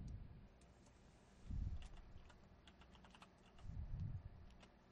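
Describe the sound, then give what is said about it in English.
Typing on a computer keyboard: a quick, uneven run of many faint plastic key clicks with short pauses between bursts, and no voices. “Let's see what happens when I type in.”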